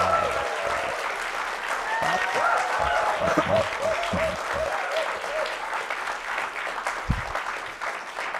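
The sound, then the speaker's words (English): Audience applause welcoming a guest speaker at a live, university-hosted talk show recording: sustained clapping from a crowd, fairly soft and even, with a voice speaking through it. “So a very warm welcome for Peter Hessler. Give it up.”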